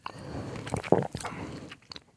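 Someone tastes a sip of Turkish boza, a thick, milky, slightly alcoholic fermented drink, making soft wet mouth and swallowing sounds at low volume.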